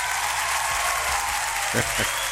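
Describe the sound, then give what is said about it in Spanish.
Applause for a woman being greeted, with steady clapping throughout and a voice speaking briefly underneath. “Un aplauso para ella también, ¿eh?”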